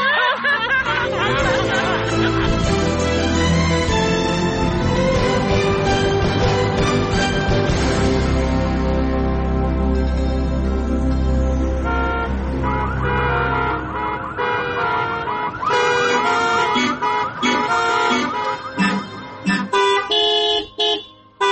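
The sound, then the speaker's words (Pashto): Car horns honk in heavy traffic, with many overlapping blaring horn tones layered into a dense, loud wall of noise that keeps going throughout and breaks into choppier bursts near the end. “که صرف هارنو نه وهې، غوږونه دې راو خوړل”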